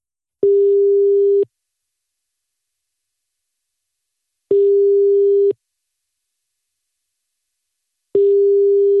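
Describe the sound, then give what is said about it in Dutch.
A ringback tone sounds on a telephone line while a call waits to be answered: three steady single-pitch beeps, each about a second long, separated by several seconds of silence. “En nu gaan we gewoon net zo lang bellen tot hij opneemt, toch?”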